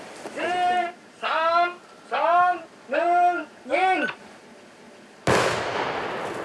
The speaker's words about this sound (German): Achtung, Achtung, wir sprengen jetzt.